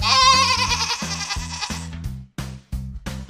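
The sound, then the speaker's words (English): A goat bleats in one long, quavering, nasal cry that is loud and bright and fades after about two seconds. “Goat.”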